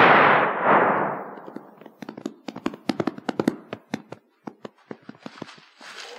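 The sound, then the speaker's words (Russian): Gunshots in a radio drama crack out as many sharp, abrupt bangs in a rapid, irregular series, some louder than others, with short gaps between bursts. “Что здесь? Кто стрелял? Гляди-ка, поручик убит.”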